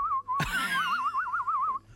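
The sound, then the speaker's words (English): A person whistling a single sustained note with a steady wavering warble, broken near the start by a brief thud, like a phone tossed down. “And then you throw it down. And then you whistled.”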